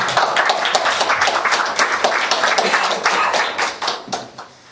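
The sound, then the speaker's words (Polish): Applause from an audience at a prayer gathering: dense, loud clapping that holds steady for several seconds and then fades away near the end. “Give him a hand, please. Proszę, dajcie mu oklaski.”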